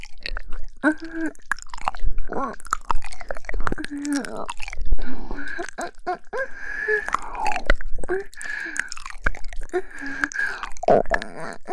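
Food is chewed with loud, irregular crunches and wet bites coming in quick bursts, mixed with voiced murmurs between mouthfuls.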